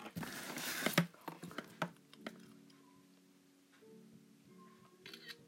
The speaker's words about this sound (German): Ich habe jetzt gerade ein Foto gemacht.